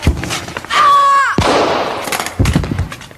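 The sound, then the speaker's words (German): A single pistol shot in a tense standoff with a drawn gun, a sharp loud crack cutting in after a whining tone, with voices briefly before and after. “Jemand verletzt? Nein, der Schuss ging ins Leere. Wer hat da geschossen?”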